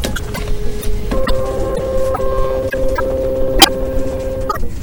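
A printer prints out photos as evidence, its steady mechanical whir and tonal hum punctuated by a few sharp ticks and clicks.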